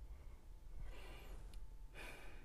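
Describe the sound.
A deep inhale and exhale taken slowly during a guided mindfulness breathing exercise, heard as two faint, soft breathy rushes of air with no talking.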